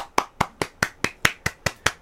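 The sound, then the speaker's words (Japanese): One person clapping alone in a radio booth: a steady, evenly spaced run of sharp, crisp hand claps, each cleanly separated by short silences, with no voices. “ブースに一人の拍手が響きますが”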